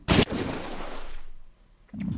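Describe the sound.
A missile launch in a video game: a sharp, loud blast followed by a rushing rumble that fades over about a second, with another low burst starting near the end.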